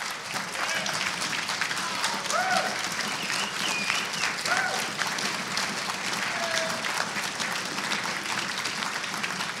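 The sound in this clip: A church audience applauds to welcome back a visiting preacher at a Baptist church, sustained, even clapping lasting nearly ten seconds with a few voices calling out over it.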